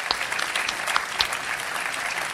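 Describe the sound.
Applause from an audience at a VCY rally greeting first-time attendees, a continuous, even stretch of many hands clapping with a few sharper claps standing out.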